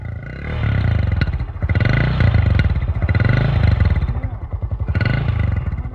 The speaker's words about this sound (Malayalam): വണ്ടി റിവേഴ്സ് പോട്ടെ.